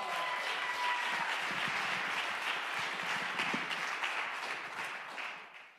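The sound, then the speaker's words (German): Audience applause greeting a female preacher coming onto the stage at a church service, a continuous, dense patter of clapping that holds steady and then tapers off at the end. “Gebt ihr einen Riesenapplaus.”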